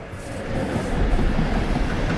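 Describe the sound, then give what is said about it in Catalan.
A train running at night alongside a motorway makes a steady, broad rumbling roar that swells a little after the first half second, then stays continuous and even throughout. “De nit, un tren circula en paral·lel a una autopista.”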